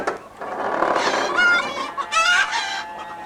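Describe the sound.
Chickens clucking and squawking in agitation, loud overlapping bursts of harsh cackles and higher squawks in quick, uneven succession.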